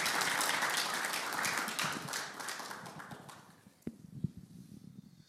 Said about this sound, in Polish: Przywitajmy oklaskami, jak mamy to w zwyczaju naszych gości.